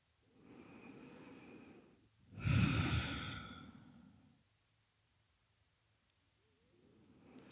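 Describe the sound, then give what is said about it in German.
Slow, deep breathing during a guided relaxation: a soft, drawn-out breath in, a short pause, then a louder, longer breath out, with no talk over it. “Atme tief an und aus.”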